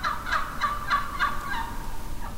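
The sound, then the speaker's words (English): A wild turkey hen calls to a gobbler during mating season, giving a quick run of sharp, raspy yelps at an even rhythm that fill the whole stretch. “but it is basic turkey communication. It is also commonly used by a hen to communicate with a gobbler during mating season.”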